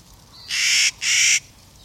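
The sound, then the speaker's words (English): A Clark's nutcracker calls high in the mountains near treeline in the western states, giving two harsh, grating, crow-like calls of similar length with a short gap between them. “High in the mountains near treeline in the western states, a Clark's nutcracker folds its wings and dives.”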